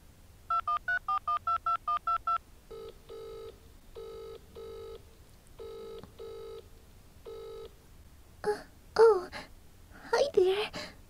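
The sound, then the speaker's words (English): Touch-tone dialing of a phone number gives eight quick, even beeps. Repeated paired ringing tones follow, then a few breathy vocal sounds. “He gave me his number. I'm going to call him.”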